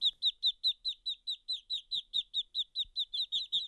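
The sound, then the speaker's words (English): Ducklings peep in a straw-lined bin under a heat lamp: many high, thin chirps follow one another in a quick, steady rhythm, with each call short and bright and no voices in between. “The bin has a hole cut in the side so the ducklings can go in and out.”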